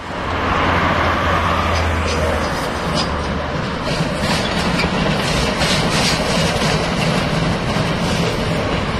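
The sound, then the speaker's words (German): A class 95 steam locomotive passes just before a crossing with a federal highway: a loud, steady rumbling roar that fills the whole clip, with a low droning tone in its first few seconds. “Vor der Kreuzung zur Bundesstraße 6 stampft unser 95er vorbei an den modernen Lokomotiven der Havelländischen Eisenbahn”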